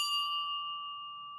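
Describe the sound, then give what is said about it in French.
A small church bell inside a church gives a single clear, high-pitched ding. The pure ringing tone sustains and slowly fades over about a second and a half above a faint low background. “De la petite cloche dans l'église.”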